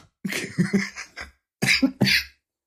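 A smoker's cough: a harsh run of several rough coughs, a short pause, then a second, briefer bout of coughing.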